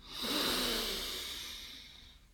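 One slow, deep breath drawn in during a guided relaxation exercise, a soft airy rush that swells quickly and then fades gradually, heard alone without talk.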